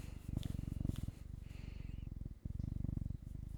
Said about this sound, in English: That's cat ASMR.